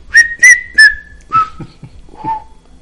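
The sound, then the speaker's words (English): A person whistles a short tune: three bright high notes in quick succession, then lower, longer notes that step down in pitch, clear and alone. “and I'm just whistling”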